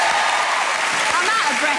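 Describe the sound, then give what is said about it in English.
Audience applause after an opening dance number on a televised ballroom dancing show: a brief, dense burst of clapping at steady loudness, with excited voices calling out over it. “Can we have a huge round of applause for that incredible opening dance?”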